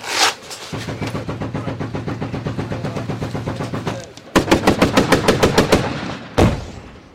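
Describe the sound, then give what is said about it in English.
Incoming gunfire cracks in rapid, evenly spaced bursts: a long string of sharp reports, a brief pause, then a louder and faster run of cracks, ending with one heavy report. “That's incoming. You hear it cracking, that's incoming like that.”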